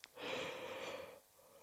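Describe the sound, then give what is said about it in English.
A single drawn-out yawn lasting about a second, breathy with a faint voiced hum running through it, fairly quiet, then a soft breath as it trails off. “Sorry, that's a yawn.”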